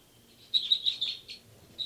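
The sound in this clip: Short, high bird chirps during a lab recording: about five quick calls in a rapid, fairly even series, then one more after a brief pause, all faint over a low background hum.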